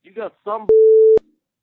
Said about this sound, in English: This voicemail, I don't really get it, but I had to bleep it.